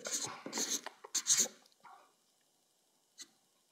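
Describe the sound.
A pen writes by hand on paper: a quick run of scratchy strokes and short scribbles for about two seconds, then a pause and one brief, faint final stroke.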